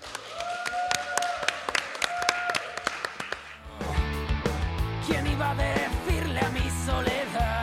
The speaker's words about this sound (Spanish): ¡Un aplauso, por favor!